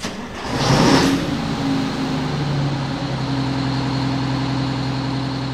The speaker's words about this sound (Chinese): 路上的烂泥越来越多，车轮一圈又一圈地空转着。